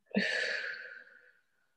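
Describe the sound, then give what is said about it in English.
A single slow, breathy exhale during a belly breathing exercise, starting strong and gradually fading out over about a second. “inhale and feel the abdomen expanding, the belly button going outward, and exhale, that comes back in. Inhale out,”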